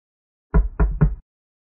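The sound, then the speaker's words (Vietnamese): Three knocks on a room door in quick succession, each a firm, low, hollow thud with a short decay, spaced evenly and heard alone against silence. “Tiếng gõ cửa phòng vang lên.”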